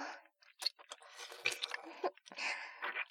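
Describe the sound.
Chewing of home-cooked food, many faint, wet, squishy bites and smacks in an irregular rhythm, with no talk.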